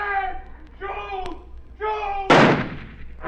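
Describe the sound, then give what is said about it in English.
A single loud gunshot is fired at a man backing away across a clearing. The sharp burst comes after several short stretches of voiced talk and decays quickly. “I didn't hit him. He started back away across the clearing. I fired again, and again, and again! But I couldn't hit him!”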